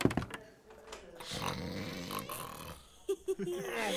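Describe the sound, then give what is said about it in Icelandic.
Loud snoring comes from a sleeping man, with rough, rasping, grunting breaths. Voices are heard alongside, and two short snorts stand out near the end. “Sá hrýtur hátt.”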